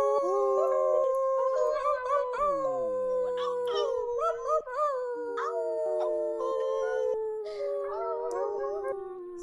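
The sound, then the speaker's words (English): Many people howl like wolves together during an online full-moon gathering, their voices imitating the sound in long, overlapping, wavering howls that glide up and down in pitch, loud and continuous throughout with no talk. “for those of you in the YouTube chat, let's hear your wolf howls for everybody here”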